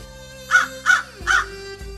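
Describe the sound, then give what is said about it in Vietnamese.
A black crow caws three times as it flies overhead, each call a short, harsh, fairly loud burst spaced evenly apart over a faint steady background hum. “Triển Chiêu đang nói chuyện, lại thấy một con quạ đen xẹt qua ngang đầu.”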